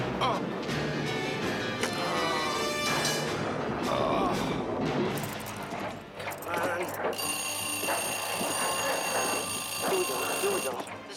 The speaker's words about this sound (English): The idea that this alarm clock was going to be accurate enough to uh, signal